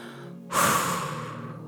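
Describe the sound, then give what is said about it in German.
A slow exhalation during a guided breathing exercise counted in four beats. One breathy rush of air starts abruptly, then gradually fades over about a second. “Und jetzt darfst du wieder ausatmen. Und zwar vier Schläge.”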